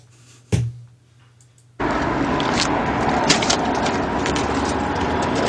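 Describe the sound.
A car door thuds shut, and after a short pause the car's engine starts and settles into a steady, loud running rumble.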